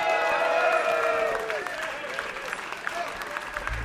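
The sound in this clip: An audience claps and cheers to welcome the Edgar Broughton Band. Steady applause with a few high cheers at the start gradually thins out.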